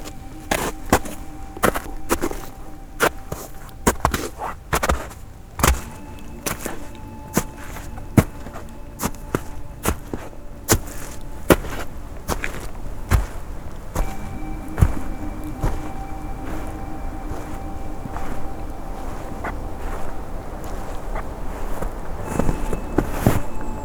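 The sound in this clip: Footsteps walking at a steady pace, many crisp, short steps continuing throughout, with a faint steady hum beneath.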